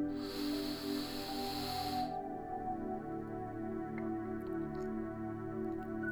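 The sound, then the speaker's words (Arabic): Someone draws a deep breath in through the nose, a steady airy hiss lasting about two seconds over soft sustained tones that keep sounding after the breath ends. “غمضوا عيونكن إذا بتريدوا وخدوا نفس عميق عن طريق الأنف اللي هو اسمه شهيق”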